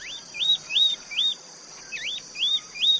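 Bird song captured with a parabolic microphone: seven clear, high whistled notes, each a quick looping slur, repeating at a steady pace over a faint continuous high-pitched hum.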